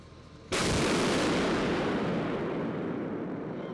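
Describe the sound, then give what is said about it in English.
Artillery fire from big Western-supplied guns on the winter front line near Bakhmut, Ukraine: a single sudden, loud boom followed by a long, sustained roaring rumble that barely fades. “In the bitter cold of winter, this deadly war grinds on. And big guns provided by Western partners still play a crucial role.”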